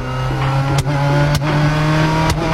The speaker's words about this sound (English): I just learned how to ride stick. Want to go for a ride? Sure, let's see what you've learned.